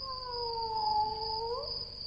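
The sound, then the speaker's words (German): A cat meows in one long, drawn-out wail that holds steady and bends upward near the end. A thin, steady high tone runs underneath throughout. “Sei still, da war was. Ne, da miaut was.”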